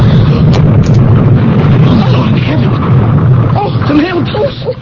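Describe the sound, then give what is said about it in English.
A bomb exploding in a mailbox produces a loud, sustained roar of blast noise with heavy low rumble that slowly thins out, with voices audible toward the end. “It blew up. Oh, it exploded. It could have been us.”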